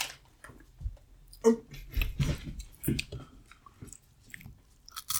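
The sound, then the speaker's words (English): Crunchy chewing of chips, with many irregular crisp bites and crackling crunches scattered over several seconds. The crunches vary from sharp snaps to softer, mushier chews. “You get some like ASMR going of us just eating chips. So everybody just like... Watch. Eat that chip.”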